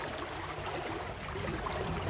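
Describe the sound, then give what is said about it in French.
Gentle water lapping along the coast at Iwajima, Japan, a soft continuous wash with no distinct splashes and no voices. “Voilà, le petit clapotis.”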